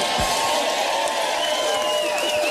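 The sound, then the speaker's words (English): Sustained crowd applause, a dense, steady wash of many hands clapping at an even loudness throughout, with faint cheering voices mixed in. “That's fucking way too much applause. For what he just said.”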